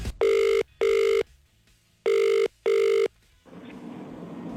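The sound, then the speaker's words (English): A telephone rings in a double-ring pattern: two short steady electronic bursts, a pause, then two more, followed by a soft hiss on the line. “It is time to ring our next caller.”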